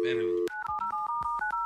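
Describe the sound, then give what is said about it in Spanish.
A telephone being dialed again, with a rapid run of short, clipped keypad tones played one after another at a steady, even pace after a brief tonal sound at the start. “Ay, espérame, déjalo, a ver, déjale, marco otra vez.”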